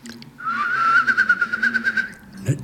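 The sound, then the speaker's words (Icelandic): A person whistles an imitation of a whimbrel's bubbling call: a sustained high whistle turns into a rapid, pulsing warbled trill of many quick beats at steady pitch, ending with a soft low thump. “Og svo var ég með spóan, því hann var að vella þetta.”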